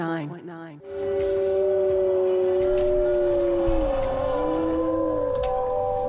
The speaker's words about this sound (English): Here we are, the wolves are howling.